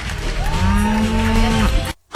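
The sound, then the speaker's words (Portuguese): A cow moos once after winning a cow beauty contest in Galicia, Spain: a single drawn-out, low harmonic lowing call over steady background noise, cut off abruptly at the end. “Tudo a mugir, as vacas todas a mugir agora.”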